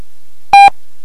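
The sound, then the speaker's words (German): A single short electronic beep marks the time signal of a German telephone speaking clock. It is a clean, steady mid-pitched tone that sounds once in a brief burst between stretches of silence. “Beim nächsten Ton ist es 22 Uhr, 25 Minuten und 30 Sekunden.”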